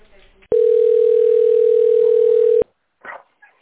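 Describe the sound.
A steady single-pitched telephone tone plays while a call is transferred, holding loud and unbroken for about two seconds before cutting off abruptly; a few brief voice fragments follow.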